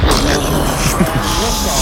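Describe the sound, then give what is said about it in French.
A voice imitating a rocket blasting off toward the Moon makes a loud, continuous, breathy roar that holds steady for about two seconds without a break. “Vous faites super bien la fusée.”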